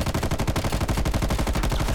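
Rapid automatic gunfire in a video game as the player fires at a tough enemy that soaks up many hits: a dense, unbroken stream of sharp, evenly spaced shots at a steady loud level, with no talk.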